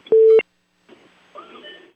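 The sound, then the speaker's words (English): Telephone tones from an accidental butt-dial call: one loud, steady electronic beep, then a brief silence before faint, muffled line noise and rustling follow. “Someone, looks like someone, they call that a butt dial.”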